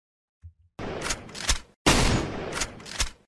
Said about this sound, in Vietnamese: Thấy có người ra tay với mình, theo bản năng liền bóp cò.